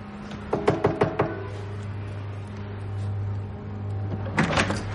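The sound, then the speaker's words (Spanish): Knuckles rap on the front door of a chalet in a quick series of sharp knocks, over a low steady hum. Another brief clatter follows near the end. “Pasa. Llama a la puerta.”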